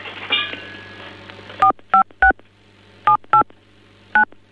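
Telephone keypad tones from someone tampering with a phone line: six short, loud, even beeps in uneven groups of three, two and one, over a low steady hum.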